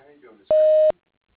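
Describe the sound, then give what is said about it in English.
A single steady, high-pitched voicemail answering-machine beep sounds alone and evenly for under half a second, right after a recorded voice finishes speaking. “Please leave a message at the tone and he will return your call as soon as possible.”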